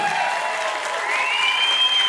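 Audience applause welcoming a guest: a dense, steady clatter of many hands clapping, loud and even throughout.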